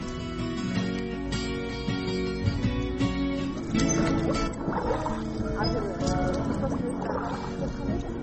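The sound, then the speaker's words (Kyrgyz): A small fuel-powered boat carries passengers across water toward Kyzyl Beyit village. Its motor drones with steady harmonic tones, and the pitch shifts partway through while splashy, sloshing noises come and go. “Биз мынтип кайык менен Кызыл Бейит айылына жөнөп баратабыз.”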